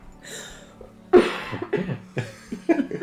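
Coughing after tea went down the wrong way: a quiet breathy lead-in, then a run of harsh, sharp coughs in quick succession, the first one loudest.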